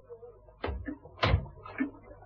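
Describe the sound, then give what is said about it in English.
A door being closed gives two soft, low thuds about half a second apart, faint and isolated, with no talk over them. “Come over here by the window, where I can see you. And close that door.”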